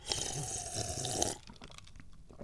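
A slurping sip of tea from a half-full cup: one sustained, airy, moderately loud sip lasting about a second, followed by quiet, with no talk.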